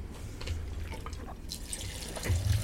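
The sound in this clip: Beer pouring from a freshly opened can or bottle gives a faint liquid trickle with light dripping and splashing, growing louder toward the end.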